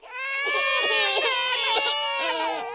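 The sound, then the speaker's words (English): A baby crying as a sound effect, a sustained, high-pitched wail that wavers with a few short breaks. It is fairly loud and heard alone, without other voices. “That's you crying.”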